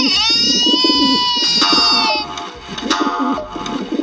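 Pigeon cooing in repeated low, throaty pulses. A sustained high, whistle-like tone runs above it for the first half, and the cooing continues more unevenly afterward.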